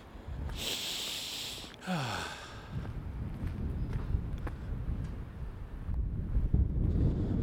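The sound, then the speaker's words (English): Wind blows across the microphone on a seaside walk in Dieppe, a steady low rumble that builds toward the end, with a short breathy hiss near the start. “Oh, the old wind's getting up.”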